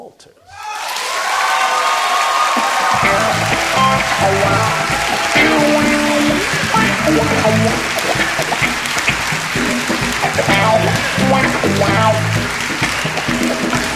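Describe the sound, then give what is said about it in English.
Loud audience applause with some cheering as a crowd welcomes a poet to the stage, starting abruptly and holding steady and dense for the whole stretch. “Please join your hands together.”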